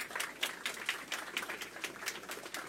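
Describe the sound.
Brief, quiet applause at a University of Tulsa press conference announcing a new head football coach, as the athletic director is welcomed to the stage; distinct claps in a fairly even, quick rhythm.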